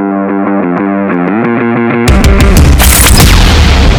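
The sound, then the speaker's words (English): Loud, distorted intro music: a pulsing, buzzy synth riff repeats for about two seconds, then a heavy booming hit launches into dense, crashing, rock-like noise. “Hit that intro music. Boom.”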